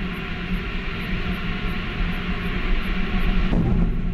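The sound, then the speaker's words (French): A rocket launch roars as the Vulcain main engine and solid boosters ignite for liftoff. The sound is a loud, continuous low rumble that stays steady throughout. “Allumage du Vulcain. Allumage des EAP, décollage.”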